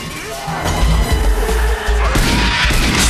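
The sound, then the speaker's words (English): A point-blank gunshot to the head in an action film fight scene, followed by several heavy, booming bangs and crashing impacts in quick succession over a loud, dense low rumble. “Blade shoots him at point-blank range in the head.”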